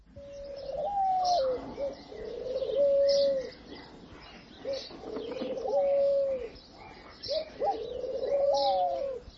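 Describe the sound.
Wild pigeons coo in a few repeated, soft, low hooting phrases, each rolling and slightly wavering, with brief pauses between bouts and faint background bird chirps.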